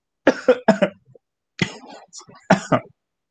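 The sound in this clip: Coughing and throat clearing after choking, in a run of harsh, loud bursts: a quick cluster of coughs, a rougher throat-clearing rasp, then a few more coughs.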